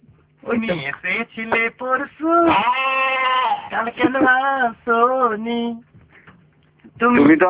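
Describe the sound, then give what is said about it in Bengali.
A goat bleats loudly in a rapid series of wavering, nasal cries, including one long drawn-out bleat in the middle, then a brief pause before a final burst. “আপনার পাশে ছাগলটা কোথায়?”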